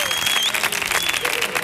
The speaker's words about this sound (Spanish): a que vengan al show del Comandante Lara, como ha hecho este maravilloso público que suena así de potente